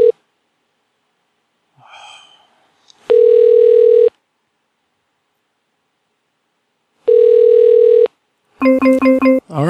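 A ringback tone plays on a phone line while a call goes unanswered: two steady, one-second buzzing tones separated by a long silence, then a few rapid pulsed tones at the end.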